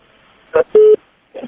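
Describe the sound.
Telephone tones after a call-in line is disconnected: a short burst, then a steady tone lasting about a fifth of a second, and another brief burst after a pause.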